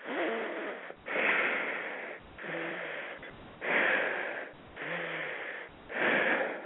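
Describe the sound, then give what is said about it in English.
Breath moves in and out through the left nostril while the right nostril is held shut with a thumb. A few wheezy, snorting nasal breaths alternate with short quieter pauses in a steady rhythm. “you would take your left thumb and put it towards your right nostril securely and breathe only through your left nostril up to 5 minutes”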